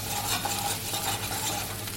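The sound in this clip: Butter and garlic sizzle in a pan over moderate heat, a steady bright crackle with soft stirring scrapes running through it, without any voices.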